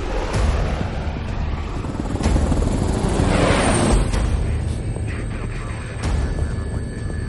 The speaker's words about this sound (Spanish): El helicóptero de los mercenarios sobrevuela la ciudad.